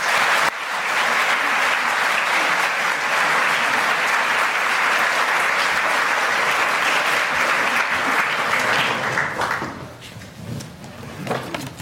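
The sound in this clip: Audience applause welcomes a guest speaker at an LSE event. The clapping is loud and steady for about nine seconds, then thins out and fades near the end.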